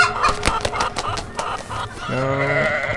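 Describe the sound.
Chicken clucking and other farm-animal calls in a farm video game: a run of quick, sharp clicking bursts followed by a sustained, wavering bleat-like call, moderately loud.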